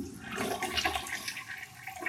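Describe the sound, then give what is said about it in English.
A toilet flushes in a short rush of gurgling, swirling water lasting about two seconds, fairly faint and steady, with no voices. “Flush it or flip it? Yeah, we flushing that joint.”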